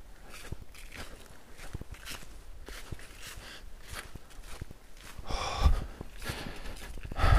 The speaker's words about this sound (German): Ich gehe weiter.